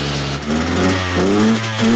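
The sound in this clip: A motorcycle engine revs with a loud, continuous, mid-pitched harmonic drone. The pitch rises a little with each throttle swell before settling back.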